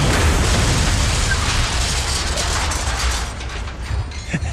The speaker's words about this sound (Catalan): el cotxe creua la ratlla vermella que els etarres han pintat a la paret. És el punt exacte on han de fer explotar la càrrega.